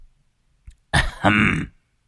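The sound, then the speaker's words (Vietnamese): A man clears his throat outside a gate in a short, gruff rasp made of two quick throaty bursts, loud against near silence. “Đang lúc đứng nghĩ ngợi ung dung, ở bên ngoài cổng bỗng có tiếng hắng giọng.”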